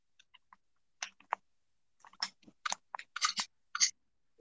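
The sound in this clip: Crunchy chewing from a person eating, made up of many irregular, crisp bite and mastication sounds of varying loudness, heard alone without talk.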